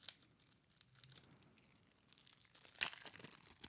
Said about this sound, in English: So I'm going to go ahead and open these. And we'll go through these just like we did with the other cards. If I could get them open, that is.